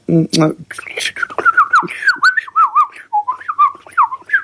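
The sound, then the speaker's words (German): Blackcap song: rapid, loud warbling chatter running into clear, fluted whistled phrases, the bright notes repeating in quick succession and wavering up and down in pitch. “Ich glaube, mein Ohr hat früher öfter so eine Mönchsgrasmücke mit der Amsel verwechselt. Du stell dir vor, eine Amsel, das kennen ja viele, auf dreifacher Geschwindigkeit.”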